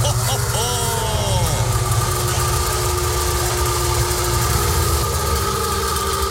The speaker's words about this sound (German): Ja, das ist der Sound des Wartburg Melkus RS 1000, der einzig echte Sportwagen der ehemaligen DDR.